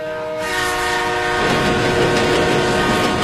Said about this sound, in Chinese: 京广高铁正在飞驰着